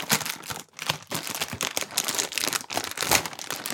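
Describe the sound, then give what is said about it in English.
Foil wrapping on a pack of cantuccini crinkles and crackles as it is opened, a busy, continuous rustle of sharp crisp clicks with brief pauses. “They're foil wrapped, which I suppose is good for freshness, but I was hoping to open it and be greeted by, you know, a glowing light.”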